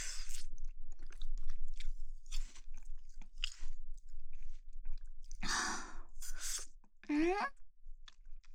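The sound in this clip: Quiet crunching and wet chewing of a cold treat that melts, with irregular bites and mouth sounds, some louder than others, and a short voice near the end.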